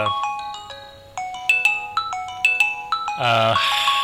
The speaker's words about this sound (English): Is that your phone?